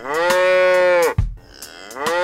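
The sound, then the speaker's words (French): A cow moos in one long, loud, steady low call lasting about a second that cuts off abruptly. After a brief lull, another moo begins near the end. “Cette petite vache fait.”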